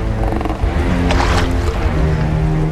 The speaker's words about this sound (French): Dans leur petit canot de sauvetage, ils pagaient de toute leur force jusqu'à atteindre un minuscule rocher.